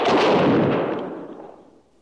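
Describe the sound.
Rifle volley fired on command by a firing detail at a funeral honors ceremony, a single loud, sharp burst of near-simultaneous shots whose rumbling tail fades away over about two seconds.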